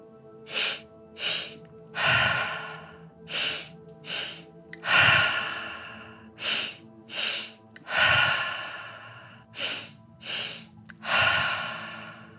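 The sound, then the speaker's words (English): Four rounds of guided breathing: each has two short inhales through the nose, then a longer, audible exhale through the mouth, over a soft steady drone. “through your nose, this time breathing into your chest and lungs, and then a longer breath out through your mouth. It will sound something like this.”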